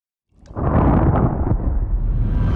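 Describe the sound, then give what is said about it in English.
A massive explosion bursts in as the climax of an intense sound piece, slamming in after a brief silence and spreading into a loud, sustained, roaring rumble. “you're listening to some like really intense like death metal or something. Finally, everything explodes.”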